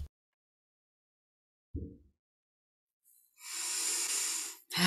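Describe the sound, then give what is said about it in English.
Deep breathing in a guided group breathing session before chanting, with singing bowls nearby: a soft low thump, then a long, steady, hissing breath lasting over a second, with another breath beginning right at the end. There is no talk. “Nice deep breath, everyone. Right to the toes.”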